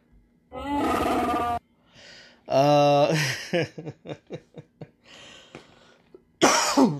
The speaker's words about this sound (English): I was under the weather. Now it's just dry throat and shit. And, so that's what all the coughing is.